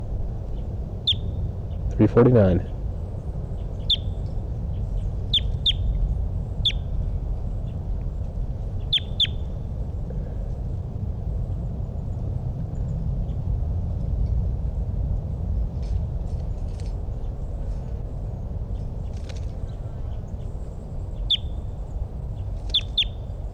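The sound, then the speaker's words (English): Repeated short, high-pitched bird calls, many brief chirps spaced irregularly over a steady low background hum. “It's recording. This is bird 349.”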